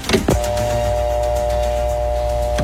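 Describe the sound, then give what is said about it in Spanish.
A telephone ringing tone plays during a call, holding steady and even for about two seconds. Short noisy bursts come at its start and end, with no talk over it. “¿Lo está llamando en este momento? ¿No? Está sonando el teléfono.”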